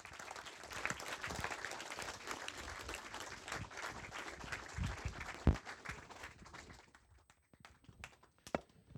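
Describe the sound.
Audience applause welcoming two speakers on stage: dense, steady clapping that holds for several seconds, then thins out into a few scattered final claps.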